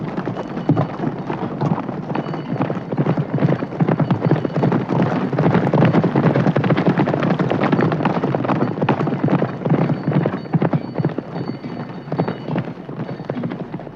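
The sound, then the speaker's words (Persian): Galloping hoofbeats of horses ridden fast by mounted riflemen past a caravan crossing the desert, a dense, continuous, loud rumble of many hoof strikes that holds steady and eases slightly toward the end. “تفنگچیان اسب سوار به سرعت از کنار آنها می گذرد.”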